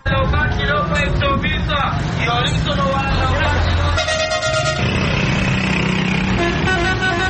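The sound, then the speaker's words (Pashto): City traffic in Peshawar, with car horns honking repeatedly over a dense, constant roar of engines and vehicles, with voices mixed into the din. “په پېښور کې د شهر شور خلک پتنګ کړي.”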